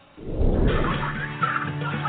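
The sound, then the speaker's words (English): Domestic white turkeys gobbling at a turkey farm near Plymouth, Massachusetts: a dense, continuous chorus of many birds' warbling calls overlapping at steady loudness throughout. “We get the turkeys when they're 1 day old, and we raise them to full maturity somewhere between 20 and 24 weeks.”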